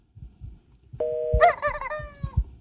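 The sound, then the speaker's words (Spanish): A telephone rings for an incoming call. A steady electronic tone starts partway through and turns into a warbling, bright ring that runs to the end over faint low thumps. “¿Qué hay? Llamada. Vamos a ver si es de McAllen.”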